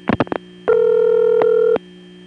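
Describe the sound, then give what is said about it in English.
Telephone call going through a crossbar 5 exchange with a number 101 ESS PBX homed on it: a quick cluster of sharp clicks, then a steady tone lasting about a second that cuts off abruptly. “When a number 101 ESS PBX is homed on a crossbar 5, you can hear some other distinct clicks as the call goes through very quickly.”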